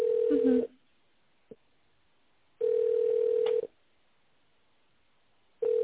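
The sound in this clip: Telephone ringback tones as a call is transferred to reception: three steady single-pitch tones, each about a second long, separated by pauses of silence, with one faint click between the first two.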